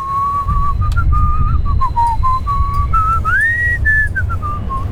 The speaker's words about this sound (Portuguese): Então o assobio ficou mais rápido. E já ficou uma característica nas canções,